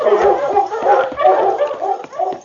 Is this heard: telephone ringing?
no